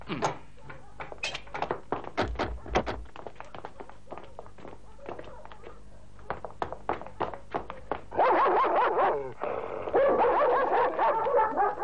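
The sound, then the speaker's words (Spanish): Dogs bark in a rapid series of many sharp, punchy barks, followed by a louder, rougher stretch of noise near the end. “¡Tiene perros!”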